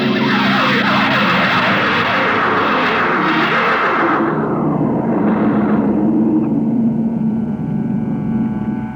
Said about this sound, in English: Decelerate to -5. We're going to take her down. There's an open area just on the edge of the city. Yes, sir. Hold on, gentlemen. We're about to land.